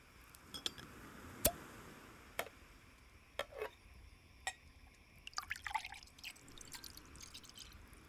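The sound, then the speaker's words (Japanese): Orange juice poured into a glass: a faint, soft liquid trickle with scattered drips and light ticks, which grow busier toward the end. “お酒はないんだけど、オレンジジュースならあるよ。わかった。ちょっと待ってね。今注ぐから。”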